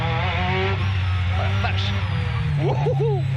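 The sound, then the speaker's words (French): A rally car with a short gearbox accelerating hard to warm its tyres, power arriving violently enough to kick it slightly sideways; a loud, steady engine roar fills the whole clip. “Bien faire chauffer les pneus. Et là, parce que la puissance, elle arrive assez violemment. C'est pour ça que j'ai fait un petit travers. On a une boîte assez courte, hein. C'est typique des voitures de rallye.”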